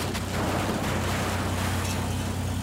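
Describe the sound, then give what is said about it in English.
A brick-and-wood house being demolished by a metal claw makes a dense, steady rumbling roar with continuous crunching debris noise and a low hum underneath, loud throughout. “The bricks and wood of the house crumble under the weight of the metal claw, sending dust and debris into the air. The noise is deafening.”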